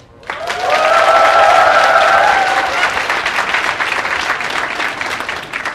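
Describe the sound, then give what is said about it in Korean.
A church audience at a Christmas program applauds. The clapping bursts in suddenly with a few shouted cheers at first, then settles into steady applause that eases slightly toward the end. “곧 있으면 발표를 시작하는데 왜 이렇게 긴장되고 떨리는지 모르겠어요. 여러분의 박수 소리가 작아서일까요?”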